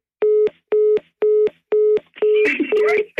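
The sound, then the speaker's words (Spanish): Telephone call-connecting tone: a steady, mid-pitched electronic beep repeats in a quick, even on-off rhythm, five clear pulses, before a burst of noise and muffled voices cuts in over the last pulses. “Y conecta la llamada.”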